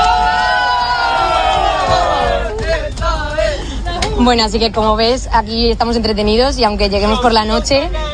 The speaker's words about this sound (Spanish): Este es el sonido de algunos de los miles de jóvenes que están deseando llegar a Madrid para este encuentro con el Santo Padre.